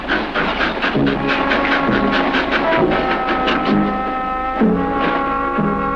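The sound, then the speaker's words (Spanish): A train pulls away with regular, evenly spaced low chuffing pulses and a constant hiss, repeating at a steady rhythm. “El tren parte llevándose la fúnebre carga.”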